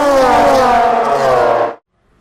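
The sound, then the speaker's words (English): Race car engines at the Road Atlanta race track: a loud, sustained harmonic roar whose pitch drifts slightly downward, then stops abruptly, leaving near silence. “Okay, we're here at Road Atlanta, Sunday morning, day two of racing ahead of us. We're here on the fan walk, the hot pit walk”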